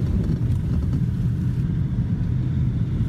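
Steady low rumble of a car driving along a remote road near a cliff edge, with engine and road noise holding an even, loud drone throughout and no voices.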